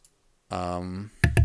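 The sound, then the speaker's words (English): A couple of sharp computer keyboard clicks as someone types a word into a search, following a brief sustained voice. “Let me look it up since it's muted right now. So I'm going to type in situated, which is not the way it's spelled.”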